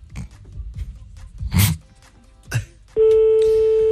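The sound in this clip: A telephone call being placed to answer a classified ad: a few scattered clicks and short bursts, then a loud, steady electronic tone that holds to the end.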